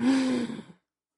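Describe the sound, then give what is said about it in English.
A long breath is let out as a soft, voiced sigh during a group deep-breathing exercise. A single gentle exhale carries a low steady hum, then thins and trails off into silence. “Everybody breathe in one deep breath. Hold on to it until I tell you to release. Breathe in like...”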